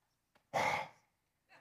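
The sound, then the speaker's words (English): A single loud exhaled breath, close to a sigh, comes from a preacher. It starts sharply and trails off, with faint breathy sounds just before and after it. “That's my breath.”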